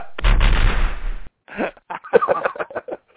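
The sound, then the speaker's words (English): Gunfire from a firing squad volley: a dense, loud, booming burst lasting about a second, then a pause and a string of short, broken sounds. “Aim! Fire!”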